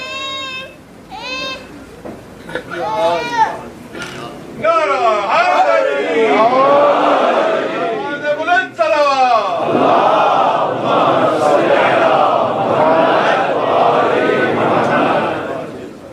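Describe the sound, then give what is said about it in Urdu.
A child's high voice shouts a chanted slogan in a few short calls, then a large crowd answers in loud unison. The crowd's roar stays dense and sustained to the end. “یہ بچہ نعرہ لگانا چاہ رہا ہے, بھئی آپ ذرا سن کے اس کی آواز پہ نعرہ بھیج دیجیے.”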